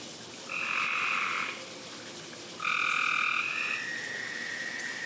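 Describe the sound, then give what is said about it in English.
Frogs chirp and croak in two bursts of high, steady, buzzing trills, the second longer and layered with several callers. A constant soft hiss runs underneath and there are no voices. “Sweet frog chirps every week. Frogs are so special.”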